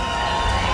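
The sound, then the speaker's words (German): Cheering from a live concert audience calling for an encore, a brief, steady wash of many voices at even loudness. “Das Publikum verlangt die Zugabe, man hört es hier im Hintergrund.”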